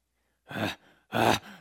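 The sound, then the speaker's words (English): A voice imitates a strange vocalized panting heard out back of a house at night, with two short, breathy, voiced exhalations separated by a brief pause. “she hears this strange sound out back of their house, kind of a vocalized panting, kind of a”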